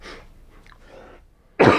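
A single loud, harsh cough from someone choking on a piece of bacon stuck in the throat bursts out near the end, after a stretch of faint breathy sounds.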